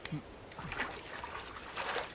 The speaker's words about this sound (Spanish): Oye, Chris, ¿me lavarías mi pera? Claro.